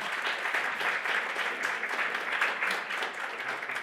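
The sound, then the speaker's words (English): A conference audience applauds its presenters with steady, dense clapping that holds at an even level for nearly four seconds. “Let's give another round to all of our presenters first.”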